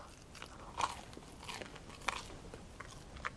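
Biting into a whole caramel-like sweet in one go, with a few short, crisp crunches spaced apart, faint and alone over quiet background noise.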